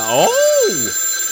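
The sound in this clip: A voice imitates a ringing telephone at a hotel with a single drawn-out, loud tone that glides up, holds steady, then slides back down.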